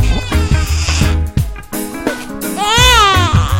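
A baby crying in loud, wavering, high-pitched wails whose pitch bends up and down, with breaks between cries and steady low tones underneath.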